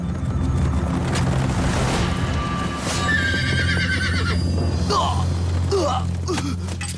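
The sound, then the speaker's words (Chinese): Horse neighing amid galloping hoofbeats in a cavalry chase, a lone rider pursued by Xiongnu horsemen: a dense rumble of hooves and low booms under several high, shrill whinnies in the second half. “李陵想要突出重围，他只身一人驾马在前面跑，匈奴骑兵在后面紧追不舍。”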